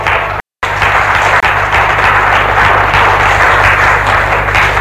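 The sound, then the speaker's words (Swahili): An audience claps during a political speech about building a socialist nation. Dense, continuous applause runs almost the whole time, broken only by a brief silent gap near the start. “Mheshimiwa, mimi nafurahi mnapiga makofi.”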